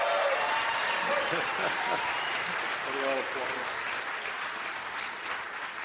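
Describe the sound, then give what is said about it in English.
A crowd of about 750 fans at a Planet Fest celebration claps and cheers for a landing team, with steady, dense applause throughout and a voice speaking over it. “where 750 fans were waiting to cheer him and his team”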